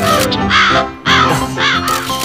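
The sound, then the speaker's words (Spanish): A bird calls in a few loud, harsh, crow-like caws that run close together with brief dips between them. “¡Oh, pero qué hermosa ave plumífera!”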